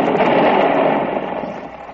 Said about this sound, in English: Hey, that's too close. Mortar.